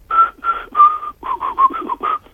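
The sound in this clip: A man whistles a melody in a song as a string of bright, clear notes grouped into short rhythmic phrases, heard alone without any talk.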